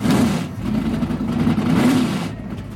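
Formula 1 single-seater cars roar on track at a circuit in northern New York State. A loud, steady, mid-pitched engine drone wavers slightly in pitch and carries a broad rushing noise, with no voices.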